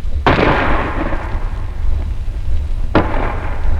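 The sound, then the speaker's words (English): Two heavy booms about three seconds apart over a constant low rumble. The first is a 5.5 gun firing at point-blank range, about 250 yards from a fort wall, and the second is its shell bursting on the wall. “First, a 5.5 gun fired at the wall of the fort for an hour or more at point-blank range, about 250 yards. The first bang you heard was the gun firing, and the second was the shell bursting on the wall.”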